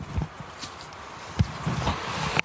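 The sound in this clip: Footsteps on a small staircase, heard as a few soft, irregular thuds and scuffs over a low background, with a sharper step near the middle.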